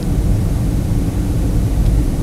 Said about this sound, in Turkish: İyice durdu. Uçak iyice yavaşladı. Ve sanki şu an bir kasisli yolda aşağı iniyormuşum gibi bir his var.